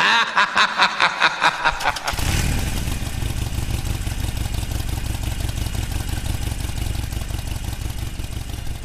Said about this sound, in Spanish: aunque tampoco esperar, ya lo veis, la moto en marcha